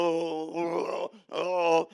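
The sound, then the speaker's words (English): A voice moans and groans in prayer, making two drawn-out, loud voiced moans. The first is sustained for about a second and the second is shorter, with a brief break between them and no words spoken. “If you don't know what to say when you get ready to pray, just moan and groan.”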